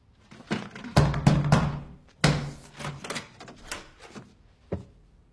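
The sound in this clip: A few sharp knocks on a bathroom door, then a louder thud and rattling as the door is opened, followed by softer handling noises and a final thump.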